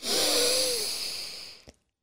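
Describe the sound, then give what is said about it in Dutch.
A long, deep breath during a guided relaxation breathing exercise: one airy, breathy rush that starts strong and fades gradually over nearly two seconds, with no speech. “Adem heel lekker uit. zucht uit. Heel goed. Adem diep in.”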